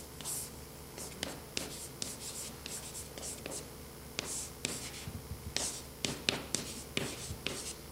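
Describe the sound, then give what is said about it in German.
Handwriting on a surface: many faint, short, scratchy pen strokes and light taps in an irregular rhythm over a soft, steady background hum. “Vielleicht schreibe ich das mal hier auf.”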